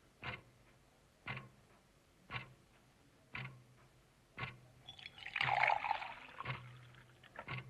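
Water is poured into a glass in one brief splashing rush partway through, while soft, regular ticks sound about once a second throughout.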